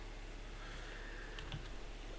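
Faint typing on a computer keyboard, a few soft key clicks over a low steady background hiss, with no talking.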